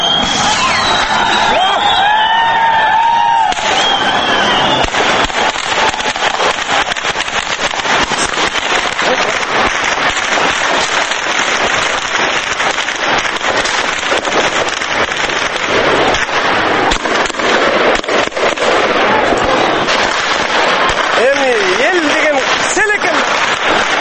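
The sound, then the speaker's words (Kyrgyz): Loud crowd roar from a clash between police and protesters outside the White House in Bishkek on 7 April, a dense unbroken wall of shouting and noise with scattered sharp impacts throughout. “Эмесе бүгүн 7 апрелде Бишкекте Ак үй алдында болгон милиция менен митингчилердин кагылышынан үндөрдү эч комментарий жок сунуштасак.”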